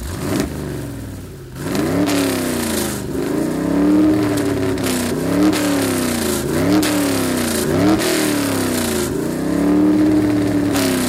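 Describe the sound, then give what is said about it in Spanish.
Engine revving from a special-edition pickup truck with a modified engine, in repeated rising and falling surges that stay loud and steady throughout, with no voices. “Quiero edición especial con el motor alterado.”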